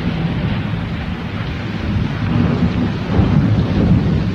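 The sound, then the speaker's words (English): Thunder rumbling through a storm with steady rain, a loud, continuous low roar that swells in the second half with heavier rolls of thunder. “Thunderstorms tonight, possibly severe.”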